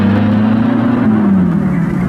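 A car engine hums steadily as the car pulls away in haste. The mid-pitched drone holds level, then dips slightly lower near the end.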